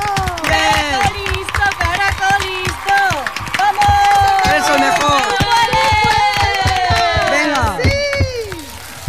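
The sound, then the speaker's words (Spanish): An audience rises to cheer and acclaim a champion entering the track for a world speed record attempt, a loud, continuous mass of excited shouts and whistles with clapping running throughout. “El público se pone en pie para recibirle y le aclama como todo gran campeón se merece.”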